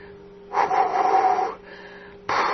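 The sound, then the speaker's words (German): A woman, an ambassador, pants out of breath, a few long, noisy breaths following one another over a faint steady hum. “Die Botschafterin muss ein bisschen schnaufen.”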